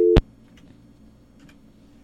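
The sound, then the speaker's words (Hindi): A single short, loud electronic telephone line tone sounds as a caller is put through on a call-in line, followed by near-silence with a faint low hum. “तो हमारे साथ एक collar भी हैं, शायद हम उनको भी ले लेते हैं, उनकी सुनते हैं कि वो क्या कह रहे हैं, ज़माना चेंज हो रहा है कि इंसान चेंज हो रहा है। मेरे ख्याल से कॉल कर रहे हैं।”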